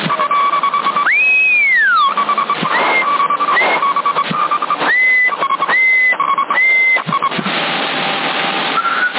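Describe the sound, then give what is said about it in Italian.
Whistling sent over a CB radio on the 27 MHz band in Sassari: several narrow, tinny whistled tones, one sweeping up and back down, then a few steady held notes, loud against radio hiss and a constant background tone. “Ma se fischi non parli, non ti capisco.”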